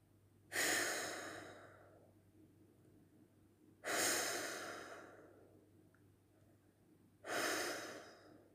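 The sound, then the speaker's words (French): Three long exhalations are breathed out with eyes closed during a breathing exercise. Each breath starts strong and trails off slowly, evenly spaced with quiet between them. “Fermez les yeux et expirez trois fois.”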